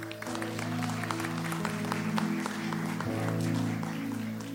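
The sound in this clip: Audience applause welcomes a guest speaker at a church gathering, with continuous even clapping at a moderate level over a steady sustained musical tone.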